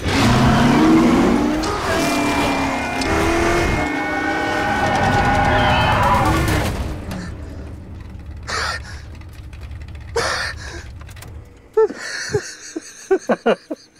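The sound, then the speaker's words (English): Loud race car engines revving with sweeping, wavering pitch, heard alongside nonstop screaming for about seven seconds before dropping to quieter sound with a few sharp clicks. “It's someone screaming nonstop and the loudest car engines you've ever heard.”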